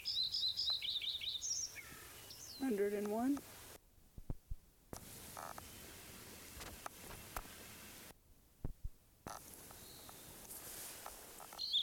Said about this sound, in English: Lincoln Sparrow number 1 continued at Bluff Lake.